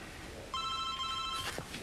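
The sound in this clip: A telephone rings once, a bright electronic trill lasting under a second at moderate loudness, with a short rustle after it.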